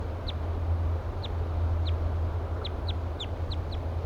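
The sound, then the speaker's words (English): A wild bird gives short, thin, high chirping flight calls. They come in an uneven series that grows more frequent toward the end, over a steady low hum. “Fluffing its feathers. Giving louder flight calls now.”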